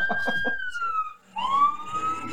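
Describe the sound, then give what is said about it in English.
A siren blares on full blast during a vehicle stop. Its loud wailing tone slides downward, cuts out briefly, then starts low and climbs again. “That's the siren on full blast.”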